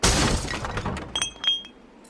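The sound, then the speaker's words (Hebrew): A tomb lid smashed open: a loud crash followed by a few bright, scattered clinks of falling fragments. “את בחיים לא תצליחי לפתוח את המכסה של הקבר. בואי נשבור אותו.”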